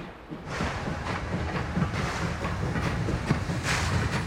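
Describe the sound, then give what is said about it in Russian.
Steam train picking up speed: a steady, noisy rumble with a few recurring hissing bursts over it, and no voices. “Поезд набирает ход.”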